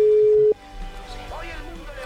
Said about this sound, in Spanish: A ver, sonando el teléfono. Quizás esté ocupada.